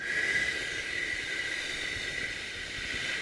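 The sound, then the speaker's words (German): A slow exhale pushed through a small mouth opening gives a long, steady, breathy hiss with a faint whistling edge, unbroken for about three seconds. “dass man durch eine ganz kleine Öffnung ausatmen kann, also nicht alles mit einem Schlag raus”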